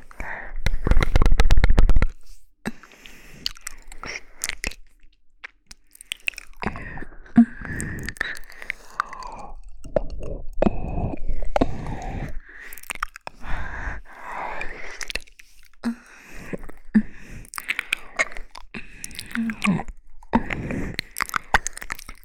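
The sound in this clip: Close mouth chewing, nibbling and smacking sounds pretend to eat the listener's ears, a dense, irregular string of wet clicks and crunchy bites with a loud burst at the start and quieter pauses between.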